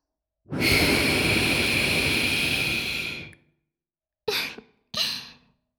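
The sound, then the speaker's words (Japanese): Soft breath blown into a wet ear: one long, steady, airy exhale of about three seconds, then two short puffs after a pause, with no talk. “濡れたお耳にふうってされると気持ちいいの？じゃあ、せーの。”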